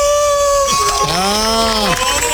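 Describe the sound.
A man howls like a wolf, voicing one long howl that rises, holds and then falls away, loud over a background of crowd noise.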